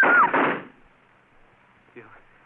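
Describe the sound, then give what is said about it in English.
A gunshot in a radio drama: a single loud bang at the very start that decays over about half a second into near silence, with a faint brief sound shortly before the end. “You shot him. You shot...”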